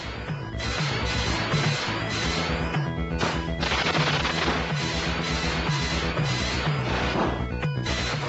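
Machine-gun fire in a robot-themed side-scrolling shooter on PC Engine: dense, rapid crackling shots and crashing blasts run continuously at a steady loud level, layered over a repeating low pulsing backing.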